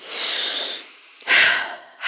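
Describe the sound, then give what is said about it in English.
A deep breath taken to steady nerves: two loud, airy breath sounds, a long one and then a shorter one after a brief pause, with no talk. “Deep breath.”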